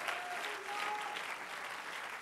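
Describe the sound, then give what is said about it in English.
Many hands clapping together as an audience applauds in a worship service, a thick, sustained rush of claps that stays level throughout. “Let's clap our hands into him and bless his name.”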